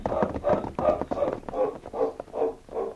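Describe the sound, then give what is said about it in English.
Hoofbeats of horses being ridden away, a steady, even series of about eight muffled thuds in a regular trotting rhythm, moderately loud with no talk over them. “Come on, let's mount and ride away from here.”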